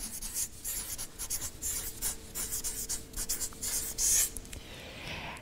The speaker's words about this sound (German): Ich schreibe mal Verwandlung hin.